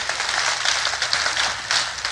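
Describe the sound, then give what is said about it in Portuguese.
Congregation applause during a Portuguese-language church sermon: dense, steady clapping fills the whole two seconds at an even level. “Dá uma salva de palmas.”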